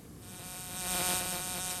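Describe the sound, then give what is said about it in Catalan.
A housefly buzzes in a faint, steady, high-pitched drone that swells a little toward the middle before easing off slightly. “És que m'ha semblat sentir una mosca.”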